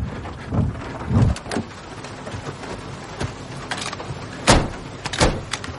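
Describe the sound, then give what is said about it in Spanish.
A car door as a person gets out of a vehicle stopped behind a police car: a few sharp clicks and thumps spread across several seconds over a low, rumbling background. “Se apea del vehículo.”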